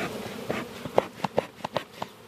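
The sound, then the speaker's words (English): Honeybees buzzing at a hive being calmed with a smoker at midday: a faint, steady buzz with several short, sharp clicks or taps scattered through it. “The smoker pretty much just sort of makes the bees more docile and more calm while you're trying to like interact with them”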